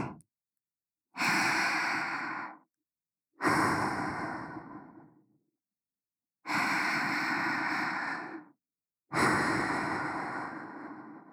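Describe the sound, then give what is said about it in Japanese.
Slow, deep breathing, four long airy breaths, each lasting a second or two and fading out, separated by silent pauses. “ほら、私と一緒にゆっくり深呼吸してくださいね。”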